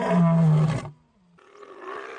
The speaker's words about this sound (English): The roar. Seriously, you don't roar, you don't make it into the club.